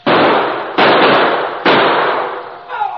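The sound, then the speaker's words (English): Gunshots: three loud, evenly spaced blasts, each followed by a long, decaying rumble that fades before the next. “Hey, they're shooting.”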